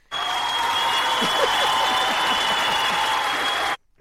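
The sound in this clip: Studio audience applause, a loud, uniform burst of clapping that starts and cuts off abruptly, with a steady high tone running beneath it.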